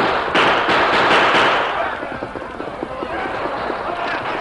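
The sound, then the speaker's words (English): Rifle gunfire in a battle, as defenders at a mine open fire on charging outlaws: rapid, loud cracking bursts crowd the start, then thin out and continue more faintly beneath a speaking voice. “The men at the mine waited quietly, their guns ready, their faces grim with determination. At last, the Lone Ranger gave the command. Open fire!”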